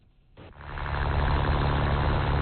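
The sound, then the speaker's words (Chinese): A boat motor starting up in a fishing harbour: after a quiet moment the engine catches and swells into a steady, loud drone with a low throbbing hum. “三亚牙洲中心渔港内马达声响起”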